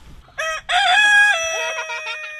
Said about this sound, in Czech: Tohle je kohout?